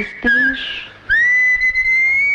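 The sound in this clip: Someone whistles an opera aria in clear, bright, pure tones: a short note with a slight warble, a brief pause, then a long held note that glides up and stays steady with a gentle waver.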